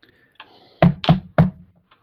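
Knocking on a door: three heavy, hollow thuds in quick succession, the last set slightly apart, preceded by a faint softer tap.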